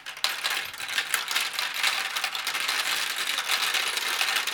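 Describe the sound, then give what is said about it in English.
Marbles rolling down a marble run make a steady, rapid clatter of hard clicks and ticks, many small impacts overlapping at an even, fairly loud level with no talk. “This is a marble thing. Let's go. Oh, one fell in front of you.”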